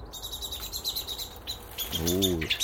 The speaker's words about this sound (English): That was Mrs. Blackbird. 10 feet up there,